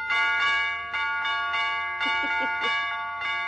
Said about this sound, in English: What did that doorbell say? It's broken